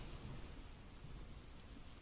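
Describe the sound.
Heavy rain pouring down, a dense, continuous hiss of drops with no pause, steady and fairly quiet throughout.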